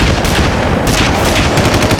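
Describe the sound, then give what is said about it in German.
Gunfire in a shootout at a house in an action audio drama: a dense, loud, continuous barrage of rapid shots with no break and no voices. “Vorsicht an der Tür! Guter Schuss, Tony.”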